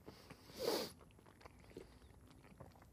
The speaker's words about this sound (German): Stattdessen fresse ich jetzt Nudeln mit Gulasch.